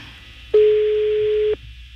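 A telephone tone sounds while placing a call during a prank phone call: a single steady, mid-pitched beep lasting about one second, alone against quiet line noise.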